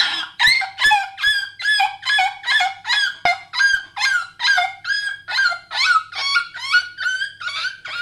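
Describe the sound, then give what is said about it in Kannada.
A human voice imitates a puppy yelping in pain after being hit by an auto-rickshaw: many rapid, high, pitched yelps in an even, steady rhythm, loud and unaccompanied. “ಒಂದು ನಾಯಿ ಮರಿ ಆಟೋಗೆ ಸಿಕ್ತು. ಅದು ನೋವಿಗೆ ಹೀಗೆ ಕೂಗ್ತು.”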